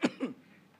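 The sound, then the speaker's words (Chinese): Two short coughs from someone who swallowed saliva the wrong way: a sharp first burst, then a weaker second one, followed by near quiet. “又不是沒水，不過吞錯了口水在氣管裡就開始咳了，是吧？”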